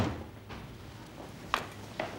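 A door being opened, heard as a few faint knocks and clicks spread over a couple of seconds, with a sharper click near the middle and another soon after, all at low level.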